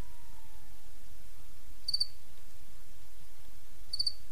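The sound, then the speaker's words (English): A single cricket chirps twice, two short high trills about two seconds apart. Each chirp is quiet and stands alone over a soft, still background. “This is the sound of one cricket chirping.”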